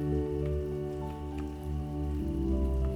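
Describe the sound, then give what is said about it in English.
Gentle raindrops fall in a steady, soft patter throughout, over a low, sustained tonal hum. “and then back to the sounds of the gentle raindrops.”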